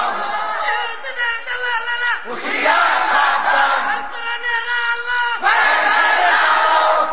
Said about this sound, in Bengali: ও আমার জাতি চিৎকার মেরে বলো, তারা মুসলমান না কাফের?